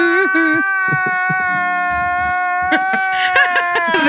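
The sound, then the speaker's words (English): A voice imitating the mating call of the mythical squonk as a sobbing cry: a run of wavering, whimpering wails and short sobbing catches that break and restart, fairly loud throughout. “The siren song of the squonk. That's its mating call as well.”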